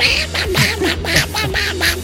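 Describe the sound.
A voice imitates a cartoon duck's quacking with a quick run of nasal, buzzy squawks in uneven rhythm. The squawks are fairly loud and heard alone.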